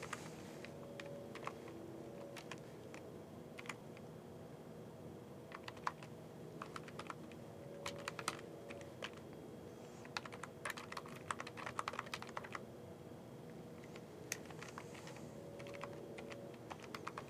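Computer keyboard typing as login credentials are entered during a device-management setup: many light keystrokes in irregular bursts with short pauses between them. The typing is faint and heard alone.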